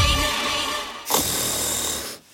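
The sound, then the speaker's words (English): A person snoring: two long, loud, rasping breaths, one right after the other, with a brief gap between them and a sudden drop to near quiet at the end. “roll over. Is snoring keeping your house awake?”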